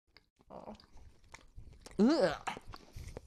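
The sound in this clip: Biting into and chewing soft milk bread, heard as a few faint, scattered mouth and chewing noises, with a voice briefly sounding in the middle.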